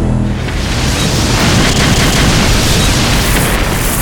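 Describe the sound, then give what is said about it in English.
War machines exploding in a loud, roaring blast that holds as one continuous rumbling wash of noise for about four seconds, with no separate bangs standing out. “And where he looked, war machines exploded.”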